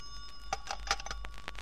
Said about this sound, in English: That's your phone. It's probably your son.